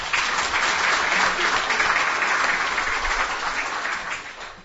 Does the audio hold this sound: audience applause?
yes